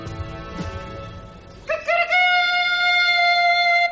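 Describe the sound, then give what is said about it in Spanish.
A man imitates a rooster crowing beside a palace at dawn: one long, loud, harmonic crow that swells up and then holds steady to the end, following a quieter stretch of low background murmur. “Un hombre imita a un gallo junto al palacio.”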